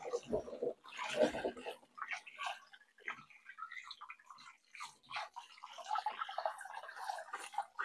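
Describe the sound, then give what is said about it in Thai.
Soil being rubbed and washed off in water on a second rinse, with faint, irregular splashes and sloshing bursts throughout. “นี้เราล้างไปน้ำที่สองแล้วนะคะก็ยังมีเศษดินอยู่ก็ขยี้เขาเลยค่ะเพื่อให้เศษดินหลุดออกให้หมด”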